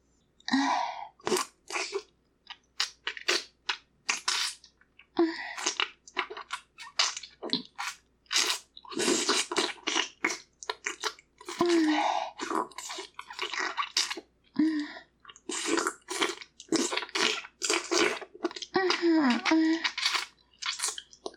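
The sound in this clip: Wet, slurping licking sounds thick with saliva come in many short, irregular bursts separated by brief pauses, with moist smacking and squelching throughout.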